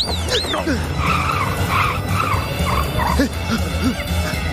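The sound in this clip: Car tires skidding as the vehicle is driven erratically: several short, wavering screeches come one after another over a rough, continuous low rumble, staying loud throughout.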